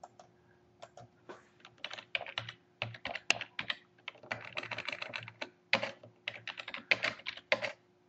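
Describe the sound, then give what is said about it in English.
Fingers type on a computer keyboard, giving many quick, faint key clicks in irregular bursts with brief pauses between runs. No one talks. “I'm going to try and type in amazing.”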